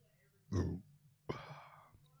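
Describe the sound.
A loud, low, rumbling burp rises from quiet background hum, lasting about a third of a second, with a shorter breathy vocal sound following soon after.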